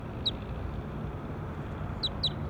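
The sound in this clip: Birds calling: faint, high, two-note chirps, one early and three in quick succession near the end, over a steady low background rumble.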